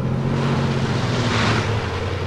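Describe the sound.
A truck engine rumbles steadily as the vehicle drives off, giving a low droning hum under broad, rushing road noise. The level stays fairly constant throughout.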